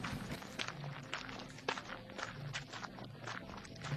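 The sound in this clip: Footsteps walk steadily across a rocky island of rock and earth in comfortable shoes, a long run of many even, moderately loud crunching steps with no talking.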